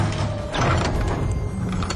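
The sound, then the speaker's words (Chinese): Locked bedroom door being rammed open, a dense, rough, grinding rattle and clatter that swells briefly near the start and stays loud throughout. “随着房门被撞开，几个人冲了进来。”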